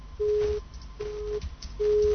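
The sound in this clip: A telephone busy tone after a call-in caller's line drops: three steady, mid-pitched beeps of equal length, evenly spaced with short silences between them.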